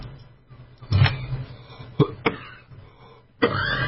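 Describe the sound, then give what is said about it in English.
A person coughs a few times, sharp, abrupt bursts spaced irregularly with some throat-clearing roughness, no words spoken between them. “I don't know why I'm coughing right now.”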